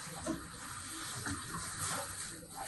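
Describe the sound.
Water splashes and sloshes as a valuable knife in a basket is dipped into and pulled out of water for ritual immersion, spilling over; a steady, noisy rush with small surges and no talk.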